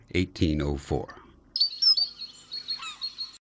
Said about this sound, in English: It is called the Lady Gouldian Finch by some,